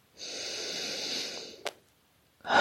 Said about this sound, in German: und atme hier ein, zweimal ganz locker.